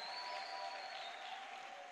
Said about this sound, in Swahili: Hebu mshangilie Bwana Yesu kwa makofi ya utukufu.